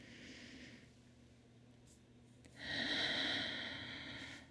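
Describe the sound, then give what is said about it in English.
A deep breath drawn in during a guided stretching exercise, heard as a soft, airy rush that swells for under two seconds over a faint steady background. “Big breath in and reach.”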